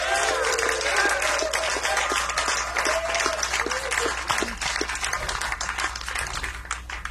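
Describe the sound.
Audience applause for a keyboard player at a live band concert: a dense, steady wash of clapping that stays loud from start to finish, with scattered cheers rising above it.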